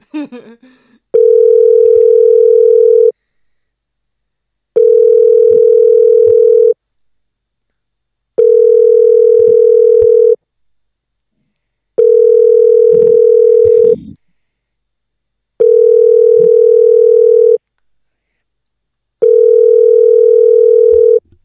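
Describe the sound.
A telephone rings loudly: six long, steady electronic tones of about two seconds each, evenly spaced by short silences, with no talk.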